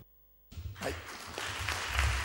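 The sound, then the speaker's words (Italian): Audience applause at an Italian political association event, starting abruptly after half a second of silence and then holding as a dense, steady patter of clapping that swells slightly toward the end. “Grazie, così l'applauso rende ancora più corto l'intervento”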